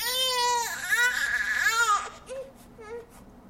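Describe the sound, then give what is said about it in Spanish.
A baby crying: two long, loud wailing cries, then a few shorter, fainter whimpering sobs. “A los padres y madres que se levantan cuando su hijo llora.”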